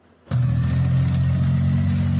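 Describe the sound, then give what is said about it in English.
Heavy engine rumble of a military tank driving on the streets of Palmetto Bay, Florida, kicking in abruptly and holding a loud, steady, low drone. “Someone driving a military tank on the streets of Palmetto Bay.”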